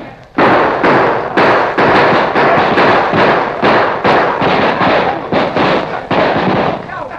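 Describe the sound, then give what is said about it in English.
Gunfire rings out in a shootout as kneeling outlaws fire their guns and an advancing posse answers, a loud rapid string of many overlapping shots and thuds with no pause between bursts. “the outlaws suddenly dropped to their knees, drew their guns, and fired, to be answered almost immediately by the advancing posse.”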